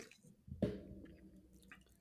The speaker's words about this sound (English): maybe even I'm gonna take another drink here.